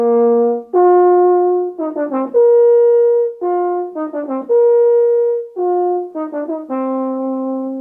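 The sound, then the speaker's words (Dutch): A euphonium plays mellow mid-range brass notes. Long sustained tones alternate with quick flurries of short ornamental notes, and the phrase repeats in a regular pattern. “En een euphonium klinkt zo.”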